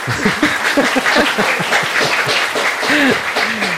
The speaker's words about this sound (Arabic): برافو يعطيكم الصحة تصفيقة